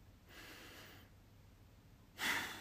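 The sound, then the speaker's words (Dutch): A deep belly breath is drawn in slowly through the nose with the mouth closed while seated. After a quiet pause, a louder, brief breath out follows. Both are soft and airy. “Mond dicht. Dus doe je mond dicht. Ga zitten en adem in door je buik te vergroten.”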